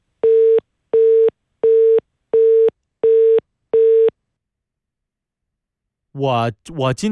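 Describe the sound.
A telephone busy tone sounds after the other party hangs up: six even, mid-pitched beeps with regular gaps, then silence before a voice starts speaking.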